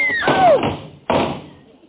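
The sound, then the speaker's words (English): A door is shoved hard and falls off its hinges, with a heavy thud at the start and a second loud thump about a second later as it lands. “Bud, you didn't have to push that hard, did you? I just gave it a little push. Well, a couple of new hinges is all it needs.”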